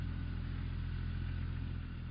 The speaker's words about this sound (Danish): De kører afsted.